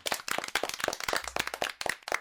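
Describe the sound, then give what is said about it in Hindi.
Applause at the close of a radio program: many quick, crisp hand claps from a small group in a dense, uneven patter, fairly soft overall. “तो एक बार फिर से जोरदार तालियां सबके लिए।”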